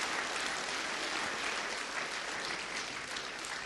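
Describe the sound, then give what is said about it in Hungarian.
Congregation applause at a church service, a steady, dense wash of many hands clapping that holds at an even, fairly quiet level for several seconds with no voices over it. “Ez egy nagy tapsot érdemel.”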